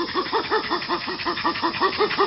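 Chimpanzee pant call given when approaching others: a rapid, even series of many breathy voiced pants, each a short arching tone, repeated steadily for about two seconds with no other sound.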